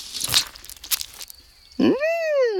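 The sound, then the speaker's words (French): Crunchy bites into a ripe red tomato, a couple of short moist crunches, followed by a louder sustained tonal sound that rises and then falls in pitch. “Il mord dans la tomate bien rouge.”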